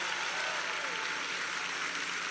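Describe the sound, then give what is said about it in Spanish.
An audience applauds in a church: a soft, even wash of many hands clapping, steady and dense with no single claps standing out. “Denle un aplauso a los muchachos.”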